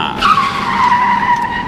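Tyres skidding on an airport follow-me car: one loud, sustained high-pitched squeal that holds steady for over a second before easing off.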